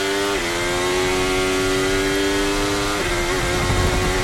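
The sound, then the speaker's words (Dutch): Onboard sound of a Formula 1 race car engine: a loud, continuous high-pitched whine under load. The pitch steps down briefly at a couple of points, like gear changes, then carries on. “Terug aan boord bij Lewis Hamilton.”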